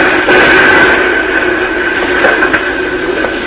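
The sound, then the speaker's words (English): Burning timbers crash down in a radio drama fire scene: a loud, dense, noisy roar of collapse that holds steady throughout, with a few sharper bursts breaking through. “Ah. But those timbers came down between us and those hombres.”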